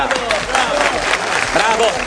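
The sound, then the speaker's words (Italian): Applause on cue for a mock political pledge to abolish gas and electricity bills: a dense wash of clapping that holds steady throughout, with voices talking over it. “Applauso.”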